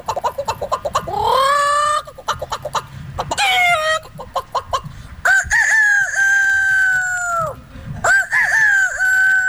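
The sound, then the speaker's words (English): A man imitates animal sounds, mostly birds. Rapid clucking chicken calls are followed by several long, wavering rooster-like crows delivered one after another. “I guess they say going viral for his ability to make animal sounds. I think he makes 11 in a minute or something like that.”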